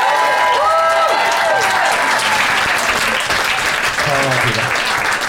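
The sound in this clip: An audience applauds loudly to vote for the team with the best case, producing dense, sustained clapping from start to finish with voices heard over it.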